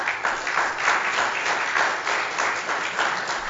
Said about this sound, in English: all of those applause should be for Mary